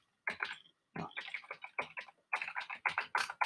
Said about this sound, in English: I'm going to type Shushani in.